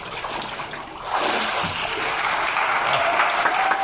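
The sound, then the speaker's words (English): An audience applauds after a baptism at a Sunday morning worship service. Dense, steady clapping swells in after the first second and carries on loudly to the end. “Getting cheering back here.”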